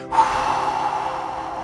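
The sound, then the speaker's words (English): A deep breath out during a guided breathing exercise: one long, airy, steady exhale lasting over a second and a half, heard alone without talk. “Now breathe out as you blast off.”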